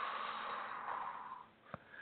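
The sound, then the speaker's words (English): During a guided breathing exercise, a long, soft, airy exhale runs for over a second and fades out, followed by a brief faint click. “Let's start with a big inhale. Let it go. Now exhale.”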